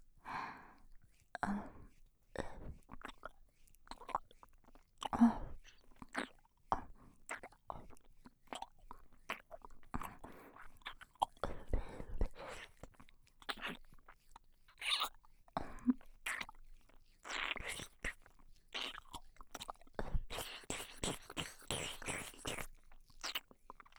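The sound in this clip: Wet mouth sounds of nibbling on an earlobe: many soft clicks, smacks and quiet chewing noises in an uneven rhythm, faint throughout with a few breathy sighs.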